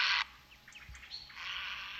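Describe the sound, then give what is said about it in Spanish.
A bird gives a harsh squawking call while flying at night, a sharp burst at the start, then faint chirps and a longer hoarse squawk near the end. “Seguro que lo han escuchado los oyentes. Es un graznido, ¿no? Sí. Es un graznido. De noche va volando cuando va de un sitio a”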